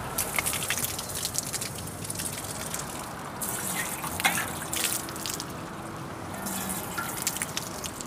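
Water pours from a child's watering can at an Austrian attraction, with steady splashing and trickling and scattered drips throughout. No one speaks.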